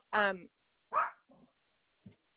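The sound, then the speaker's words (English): A dog barks twice in quick, loud, sharp bursts, followed by a couple of fainter short sounds, with silence between them. “sorry about my dog.”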